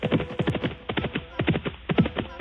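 A horse named Pete is ridden out to a corral, its hooves clip-clopping in a brisk, regular rhythm of many hard knocks, fairly loud and alone.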